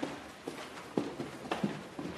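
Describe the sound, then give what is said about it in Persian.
Footsteps going down stairs: a series of soft, fairly regular thuds at moderate volume with no voices. “منصور و سودابه از پله ها پایین میرن.”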